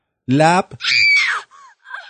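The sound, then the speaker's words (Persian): A man's shrill scream, performed for laughs at a comedy show: a short low vocal burst, then a long high scream that falls in pitch, followed by faint breathy sounds. “من این جیغ منه”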